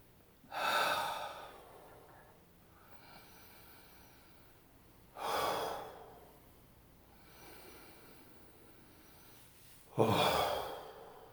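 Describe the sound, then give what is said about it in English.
Three deep breaths taken together by a group: each is a loud, airy inhale about five seconds apart, with softer exhales between them and no talking. “Let's take three breaths with that and come back to this room.”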